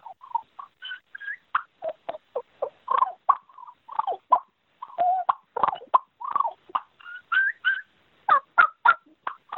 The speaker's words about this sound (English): I'm going to use a bat wing call, a Ninja, from the Ninja series.